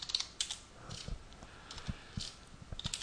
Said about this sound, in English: just typing some of this. I'm having a hard time, sorry, talking and typing